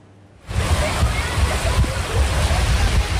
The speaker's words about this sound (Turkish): Edirne'de şiddetli yağış sele yol açtı. Göle dönen yollarda bazı araçlar mahsur kaldı.